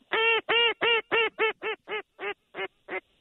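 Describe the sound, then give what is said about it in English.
Teal ducks over marshes, heard as ten harsh, nasal quacks in a steady series. The first calls are loud, then each grows quieter and more spaced toward the end. “Big flocks of teal. Wow, they just going right over the marshes.”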